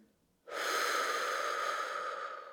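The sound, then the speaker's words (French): A deep exhalation empties the lungs during a guided relaxation breathing exercise. After a moment of quiet, a long, breathy rush of air begins abruptly and holds steady for about two seconds, easing slightly at the end. “Si vous êtes prêt, videz bien vos poumons.”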